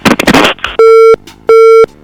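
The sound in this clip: Telephone busy signal after a caller's line drops: two long, loud, steady beeps with a pause between them, following a short burst of mixed sounds at the start.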